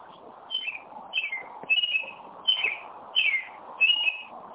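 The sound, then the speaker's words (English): A bird chirps in a backyard, repeating short, bright, high-pitched calls at a steady rhythm about every two-thirds of a second over a faint, low background hum. “Who's got a birdie? I do. I'm sitting in my backyard. Is that you out in nature?”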